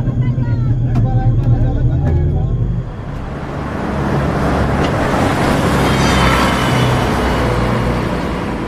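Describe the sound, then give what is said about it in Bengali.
A bus rattling along a broken, potholed road: loud, continuous low engine rumble, shifting after a few seconds into a broader, rougher rattling roar that carries on steadily. “বাসটা ভাঙা চোরা রাস্তা ধরে ঘর ঘর শব্দ করে চলে গেল”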